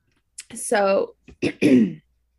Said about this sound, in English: Sorry, I had a tickle in my throat.